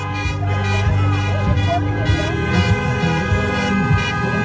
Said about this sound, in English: That's the sound of thousands of people protesting in Lansing, Michigan.